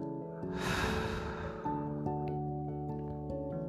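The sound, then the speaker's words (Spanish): A long breath exhaled through the mouth after a held breath during a guided breathing exercise, a breathy rush lasting about a second, over soft sustained background music tones. “Retén, retén, retén, retén y exhala por la boca.”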